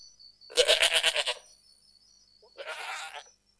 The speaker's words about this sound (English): What is the name of this animal? This is goat.